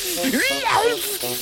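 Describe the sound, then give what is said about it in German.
A snake in a children's jungle story shrieks and hisses as it flees into the bushes after a blast of fire: a brief, shrill, wavering cry over a broad, steady hiss. “Die Schlange kreischt auf, wirbelt viermal im Kreis herum und zischt jaulend ab ins Gebüsch.”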